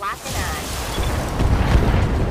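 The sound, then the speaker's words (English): A heavy booming blast rings out as a Panther mech fires its PPC weapon in a video game, a low rumbling roar that swells and grows rougher toward the end. “Let's fire. We're hoping this PPC hits.”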